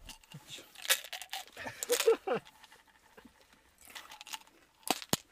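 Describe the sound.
A chewable breath-freshening tablet being crunched and chewed, giving irregular crisp crackles and clicks with a few louder bursts against a fairly quiet background.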